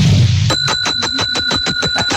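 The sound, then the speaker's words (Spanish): A bell rings in a loud, rapid run of repeated strikes, each giving off steady high metallic tones that sustain across the whole burst. A low, rumbling noise comes just before the first strike. “Esa campana.”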